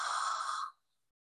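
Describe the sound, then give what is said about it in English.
One long breathy exhale during a guided breathing exercise, soft and airy like a sigh. It holds steady for about two-thirds of a second, then fades quickly into silence. “Breathe in through the nose. Breathe out.”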